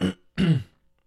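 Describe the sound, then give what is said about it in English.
Phlegmy throat clearing, two rough, low bursts separated by a short pause, the second longer and louder, with nothing else heard around them. “You know the podcast is back when I do a throat clear. Got that phlegm going.”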